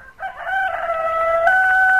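A rooster crows once in a single sustained, strongly tonal call of about two seconds that holds steady and loud, with no talking.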